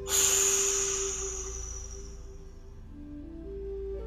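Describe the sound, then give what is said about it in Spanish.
A forceful exhale after a held breath bursts out as a loud, rushing hiss, then trails off over a couple of seconds. A faint sustained tone continues underneath. “Inhala. Aprieta. Y exhala con fuerza.”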